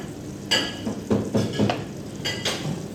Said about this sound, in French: Donc même principe, on va mettre une noix de beurre.